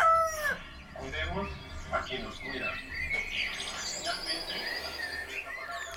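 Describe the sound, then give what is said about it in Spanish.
Roosters crow repeatedly among chirping and calling birds at home in the early morning, with a television playing in the distance behind the dense, steady birdsong. “La televisión está prendida a lo lejos y cantan los gallos entre otras aves.”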